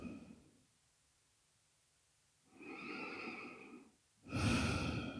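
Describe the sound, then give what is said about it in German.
A slow, deep breath drawn in and then released during a guided relaxation, the soft airy inhale swelling gently before a louder, fuller exhale, with a faint trailing breath at the start. “Nochmal tief ein- und ausatmen.”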